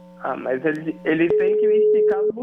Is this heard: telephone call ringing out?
yes